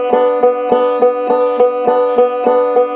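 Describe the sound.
A string instrument picked in alternating double stops, index and middle fingers sounding two strings together and the thumb then striking one of those strings: an even, rapid stream of many bright, ringing plucked notes at steady, loud level, with no voices.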